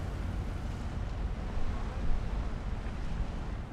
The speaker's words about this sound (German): Wenige Minuten nach dem Anruf der Einsatzzentrale nimmt der Kapitän Kurs auf Wedel, elbabwärts.